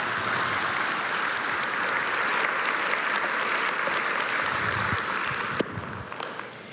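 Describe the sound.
Audience applause welcoming a speaker, a steady wash of clapping that holds level for several seconds and thins out toward the end.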